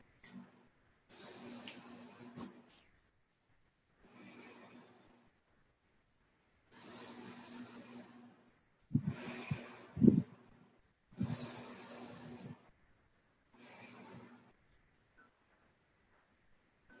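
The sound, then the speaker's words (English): A group takes deep breaths to relax. Several long, soft, breathy inhales and exhales come with quiet pauses between them, and no talking is heard. “And so all of us can first take 3 deep breaths to relax, like I said.”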